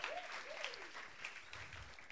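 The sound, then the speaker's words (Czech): Audience applause welcoming a speaker onto the stage: soft, continuous clapping from many hands, steady and faint throughout. “pojďme mu zatleskat, pojďme ho přivítat sem nahoru.”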